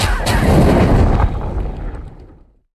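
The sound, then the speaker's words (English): A movie sound effect of a fire lit with a magic umbrella erupts as a loud, roaring burst that holds for about a second, then gradually dies away into silence. “what that is the sound of Hagrid lighting a fire with his magic umbrella in Harry Potter and the Sorcerer's Stone”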